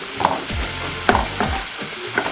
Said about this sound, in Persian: ببینی الان فرایند سرخ شدنش چقدر تسریق میده که الان بیش اونجوری هم سرخ میشه